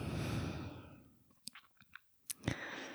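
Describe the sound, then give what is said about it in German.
Palms rubbed briskly together to create warmth, a soft, broad swishing that fades out within about a second, followed by a few faint small clicks. “Und dann reib einmal deine Handflächen aneinander, sodass Wärme entsteht zwischen den Handflächen.”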